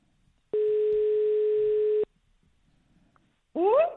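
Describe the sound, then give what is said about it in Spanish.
A telephone call rings out as one long, steady, even ringing tone, followed by a quiet pause and then a brief voice at the end. “Mira, ya está. Estamos llamando.”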